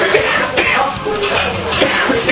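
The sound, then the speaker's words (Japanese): A person choking and coughing: a few harsh, sputtering bursts over a loud, noisy background, with no clean break between them. “あれ今むせた、むせた、今いけなかった。”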